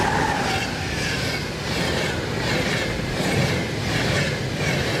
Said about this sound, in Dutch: Kijk, ik kom net het trein aan.